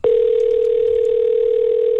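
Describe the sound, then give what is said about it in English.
A telephone dial tone sounds alone as a loud, steady, unbroken single-pitch hum for about two seconds. “And it's time to get to the phone lines and call a winner.”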